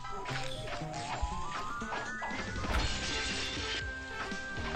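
Crashing impacts as robot enemies are smashed together in a video game: a couple of sharp hits stand out within dense game effects and tonal music, all fairly faint.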